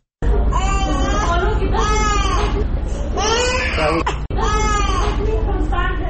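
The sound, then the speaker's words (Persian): A child cries, a malnourished youngster in a Kabul hospital, in a loud, continuous wail of repeated rising and falling sobs, broken only by a brief catch near the end before the crying resumes. “همکارم نسیم شفق در این مورد گزارش را تهیه کرده که با صدای گریان یک کودک آغاز میشه”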